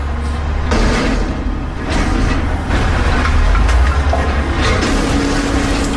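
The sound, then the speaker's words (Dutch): A garbage compactor truck at work gives a loud, continuous mechanical roar of rumbling and grinding over six seconds, broken by a few harsher clanking surges. “Dit is een kraakperswagen. Veel vuilnisophalers, ja, die gaan dus ook wel vroeg aan het werk.”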